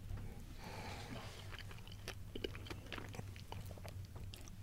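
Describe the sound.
Faint, soft chewing of a black fig from Italy, with small moist bites and squelches over a low steady background hum.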